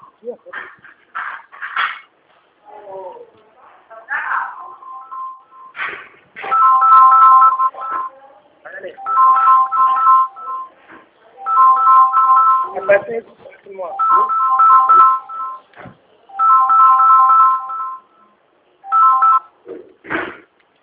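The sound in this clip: Telephone ringback tones sound while a call is placed: a series of steady, evenly spaced buzzing tones, each lasting about a second, repeat many times, with brief voices at the start and short sounds between them.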